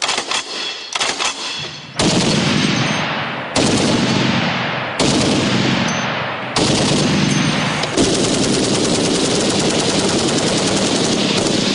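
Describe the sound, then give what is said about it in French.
Loud, rapid gunfire from a 12.7 mm heavy machine gun. Shots run together into long, continuous roaring bursts, several sustained strings following one another with barely a break. “Début des hostilités avec une arme best-seller, écoulée à des millions d'exemplaires, la 12-7. C'est la mitrailleuse la plus redoutée aujourd'hui sur les champs de bataille.”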